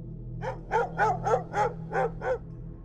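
A dog barks wildly in dark woods beyond a cabin after bolting outside, giving seven evenly spaced, mid-pitched barks over a low steady hum.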